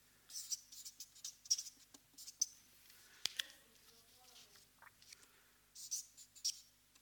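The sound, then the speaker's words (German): Handwriting with a pen, heard as quiet, scratchy strokes and light taps in short irregular bursts, with a pause partway through. “Ich schreibe einfach mal Stress, dann dauert das nicht so lange.”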